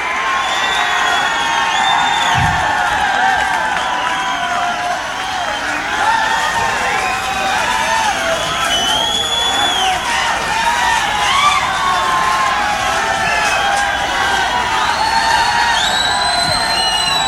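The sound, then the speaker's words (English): Concert crowd cheering, whooping and clapping as it calls for an encore: a dense, steady roar of many voices that stays at the same loudness for the whole stretch without a break. “This audience is not going to leave unless you guys do an encore.”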